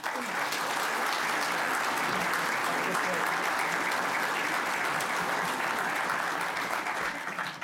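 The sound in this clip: Audience applause welcoming a speaker to a Virginia Historical Society talk, dense, even clapping that holds at a steady level from start to finish.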